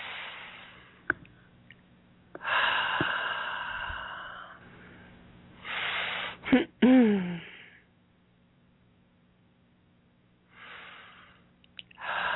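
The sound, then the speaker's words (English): Slow, deep breaths in through the nose and out through the mouth, several soft airy inhales and exhales separated by quiet pauses, steady and unhurried. “Nice deep breaths. In through the nose and out through the mouth.”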